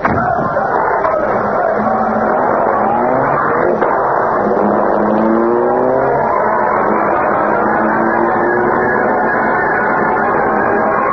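A car engine revving and accelerating as the car drives off, with pitch climbing in several successive rises like gear changes, steady and fairly loud throughout.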